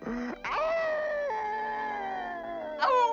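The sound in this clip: A cartoon dog whining in a dubbed Looney Tunes short: high, tonal whimpers with a long sustained whine that drops in pitch in steps, followed by a brief, sharper whine at the end.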